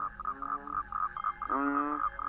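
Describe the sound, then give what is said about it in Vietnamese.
Toads and frogs croak at night in a quick, steady run of repeated calls. The chorus carries on through the whole stretch, and a lower, drawn-out harmonic call swells in partway through. “Quái lạ, cóc nhái đâu mà kêu nhiều thế.”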